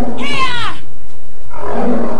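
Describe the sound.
A large tiger, nearly the size of a calf, roars twice: loud, harmonic growling bursts separated by a short pause, with no voices present.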